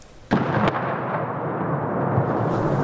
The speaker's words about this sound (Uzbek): Viloyatning Chasiyar shahri ko'chalarida portlash ovozlari eshitilmoqda.